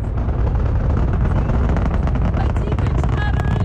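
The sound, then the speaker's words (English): Deep crackling roar of NASA's largest rocket lifting off for the Artemis I moon mission in Florida, a steady, loud, dense rumble laced with sharp popping crackle throughout. “After several false starts, NASA finally sent Artemis on its trajectory to the moon. NASA's largest rocket created a fireball that Floridians could see all across the state and spectators could feel in their hearts.”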